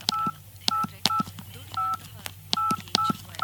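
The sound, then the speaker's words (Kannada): Telephone keypad dialing tones as someone repeatedly punches in a number at home: several short, bright two-note beeps in a quick, uneven run, each starting with a faint key click. “ಯಾರಮ್ಮ ಒಂದೇ ಸಮನೆ number ಒತ್ತಾನೆ ಇದ್ದಿ?”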